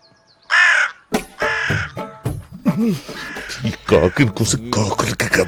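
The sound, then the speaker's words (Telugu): A crow cawing in a series of harsh, rasping calls of uneven length, loud and repeated, with a voice also heard among them. “చూడండి అయ్యా, మనం ఎంత insult చేసినా still నాకేదో communicate చేయాలని ఎంత కృషి చేస్తుందో ఈ కాకి.”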